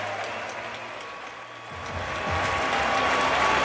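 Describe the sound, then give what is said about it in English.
Applause and crowd noise from a standing ovation by players, spectators and announcers at a center-court event at Pfizer Forum: a dense, steady wash of clapping that swells louder partway through and holds. “Standing ovation. From everybody, the players, the spectators, the announcers.”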